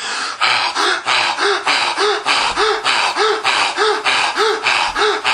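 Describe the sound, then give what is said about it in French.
A breathing demonstration of full, deep breaths through the respiratory channel: quick, forceful breaths repeat in a steady, even cycle, many in a row, with no talking over them. “Donc je vais vous montrer comment on respire à 100% de l'énergie du canal respiratoire. Ça fait à peu près comme ça.”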